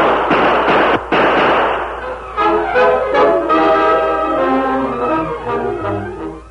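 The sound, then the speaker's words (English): Gunshot sound effect in a western radio drama: a loud noisy blast with a single sharp crack near the start, then quieter tonal sounds carrying on to the end. “The Lone Ranger dropped down beside his Indian friend, then turned and fired as a figure leaped behind a building.”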